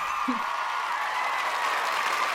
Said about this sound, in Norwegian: Og for en applaus, fantastisk.